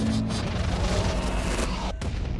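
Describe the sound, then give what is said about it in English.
Defense fire shoots upward at an incoming missile over a research facility with a cluster of satellite dishes, heard as a dense, continuous roar of gunfire that stays loud throughout. “The target, Skynet Research and Development Facility. A cluster of satellite dishes. Defense fire shoots upwards.”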